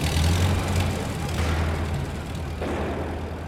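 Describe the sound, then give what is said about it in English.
A getaway car from 1923 speeds off carrying an escaping man, its low engine rumble droning steadily throughout at a fairly even loudness. “He's dislocated his shoulder, but he still manages to make it to a waiting vehicle. He clambers in and it speeds away.”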